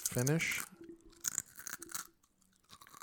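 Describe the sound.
Crunching and chewing of salt and vinegar potato chips: a few crisp, sharp bursts after a short stretch of someone speaking.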